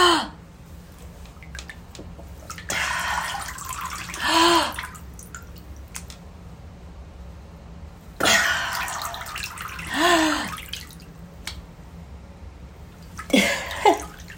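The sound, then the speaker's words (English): Water sloshes and splashes as a face dips under the surface and then lifts out for a breath. A few separate bursts of splashing and breathy noise stand out against a low, steady background, with no talk. “nose, upper cheeks are all underwater, and then I'll come up, take a deep breath, and submerge again”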